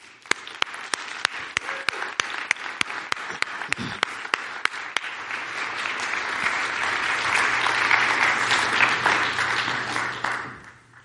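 Churchgoers applaud to welcome guests to the front. It begins as sparse, separate claps, builds into dense, sustained applause, and then stops abruptly near the end.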